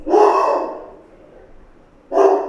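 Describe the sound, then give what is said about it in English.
A pet dog barking twice: two loud, clear barks with a short pause between them, heard alone without any talk. “That's my dog.”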